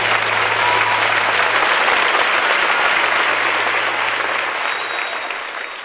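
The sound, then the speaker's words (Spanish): Sustained loud applause given in praise of Jesus, a dense, continuous wash of clapping that holds steady and eases off slightly toward the end. “Dale un fuerte aplauso a Jesús.”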